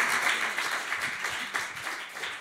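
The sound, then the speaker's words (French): Audience applause for the participants of a closing panel discussion at a day-long event, a steady dense patter of many hands clapping at moderate level throughout. “Merci à cette table ronde, je demande effectivement de les applaudir.”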